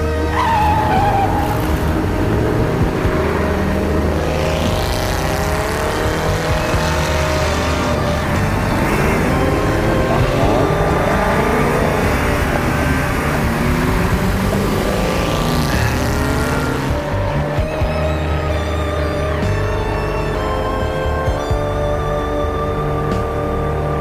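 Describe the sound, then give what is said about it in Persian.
Two cars race side by side, neither giving way. Their engines roar continuously and loudly, with overlapping whines that climb and fall in pitch through the whole run. “دوتا ماشین به موازات هم در حال حرکت هم. هیچ کدوم به هم راه نمیدن.”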